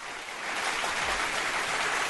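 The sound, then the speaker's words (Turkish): Applause on a comedy talk show: faint, even clapping that swells slightly and then holds as a continuous hiss-like patter, with no voices. “Vay bir alkış gönderim o zaman sana.”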